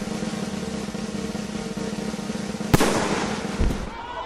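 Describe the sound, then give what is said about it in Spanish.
A Smith & Wesson .45 calibre pistol with a mother-of-pearl grip fires a single sharp, loud crack over a steady background drone, followed shortly by a lower dull thud. “Como podía esperarse, el tiro fue fatal y levantó al ministro la tapa de los sesos.”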